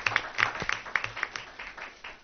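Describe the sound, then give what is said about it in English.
An audience applauds two third-grade teachers with scattered hand claps and a few crisp accents that gradually thin out and grow fainter. “So give them a round of applause.”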